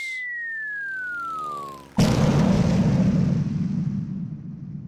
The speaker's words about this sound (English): Dozens of incendiary bombs burst into flames over the prison building.